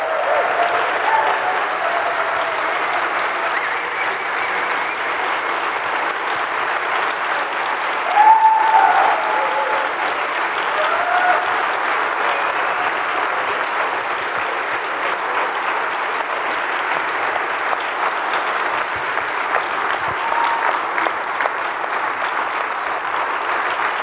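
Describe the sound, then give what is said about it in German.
Audience applause at a conference as a member of the organizing team is called onto the stage. The crowd gives sustained, even clapping for about 24 seconds with little change in loudness. “Applaus”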